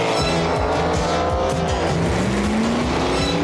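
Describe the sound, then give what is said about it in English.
Race cars speed around the Indy 500 track, a dense, loud, continuous roar of engines with layered whining tones, tire squeal and an engine note climbing in pitch toward the end. “Indy 500, the fastest, richest race on Earth.”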